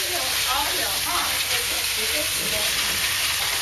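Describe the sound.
Beef and noodles fry in a pan with a steady, even sizzle, a bright hiss that holds at the same level throughout.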